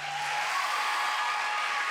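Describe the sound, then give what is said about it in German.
An audience gives faint, steady applause as thanks, a soft continuous wash of clapping with no voices over it. “Eigentlich müssten wir euch, und das wollen wir auch, euch jetzt noch einen Applaus geben.”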